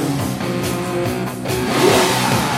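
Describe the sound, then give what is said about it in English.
The engine of a 1972 Lamborghini revs in a continuous throaty rumble with layered tones, then swells louder in a rev toward the end. “That is Eddie's 1972 Lamborghini. But he's having trouble with it.”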